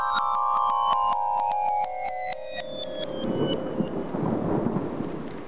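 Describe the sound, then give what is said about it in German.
Rain falls during a thunderstorm on a street with passing cars, a loud, hissing wash of noise that swells in once a pulsing electronic tone fades, continuing with uneven surges and no voices. “Jetzt regnet es auch noch.”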